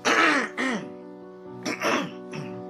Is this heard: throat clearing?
yes

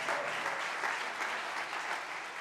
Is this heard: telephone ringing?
no

